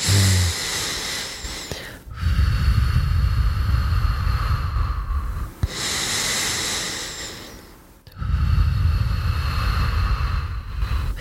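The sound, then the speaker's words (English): Slow, deliberate breathing with long exhales, the kind used to ease anxiety: a few long, airy breaths, each lasting several seconds, with a short pause between them and no talking. “if we're feeling highly anxious, we can put the emphasis on the exhale and make the exhale long.”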